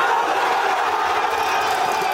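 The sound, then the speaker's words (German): A large crowd in Spain roars and cheers after the final whistle of the World Cup final won against Argentina, a loud, dense, unbroken wall of shouting voices. “Guten Morgen und so jubelt man in Spanien wahrscheinlich immer noch.”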